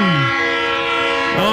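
A locomotive's train horn sounds as a loud, sustained chord of steady tones held for the whole moment, with a brief bend in pitch near the start and again near the end.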